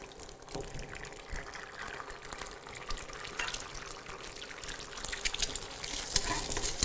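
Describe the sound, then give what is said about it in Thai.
Sizzling of an egg frying in a pan as it cooks, a steady, dense crackle with no talk over it. “โอเคมาค่ะขออีกหนึ่งฟองนะค่อยๆใส่ลงไปค่ะ”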